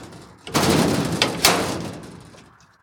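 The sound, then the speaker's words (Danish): A heavy steel gate opens at a mink farm. A loud scraping rumble starts abruptly, is marked by two sharp metallic clanks, and then gradually fades away. “I Blundgård åbner stålporten.”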